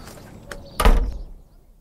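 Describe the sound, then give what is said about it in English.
A front door swinging shut, with a short click followed by a single heavy, low thud that quickly fades, heard alone with no voices. “Close the front door and come into the drawing room.”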